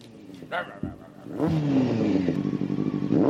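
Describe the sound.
A motorcycle engine revs up and holds a throbbing, rising drone with rapid pulsing, while voices speak over it.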